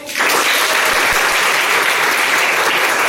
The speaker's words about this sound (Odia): ତେବେ ଏହିସବୁ ତାଳି ସହିତ ଆଜିର ଏହି ଅଙ୍କଟିକୁ ସମାପ୍ତ କରୁଛୁ।